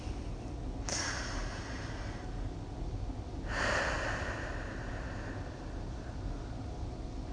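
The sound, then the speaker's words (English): Deep breaths taken during a guided relaxation exercise while lying down: two soft, airy breath sounds a few seconds apart over a steady low hiss, faint and with no talk. “We're going to take 5 deep breaths, and we're going to clear our minds completely.”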